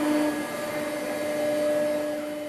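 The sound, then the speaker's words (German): A CNC milling machine cuts tool shapes out of a foam mat, giving a steady whirring hum with sustained high tonal whines and an even level throughout. “Die Maschine fräst nun nach der Zeichnung der Azubis die Formen verschiedener Werkzeuge aus der Schaumstoffmatte.”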